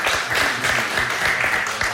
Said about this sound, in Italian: Vabbè dai, un applauso, troppo buono il maestro Jarno.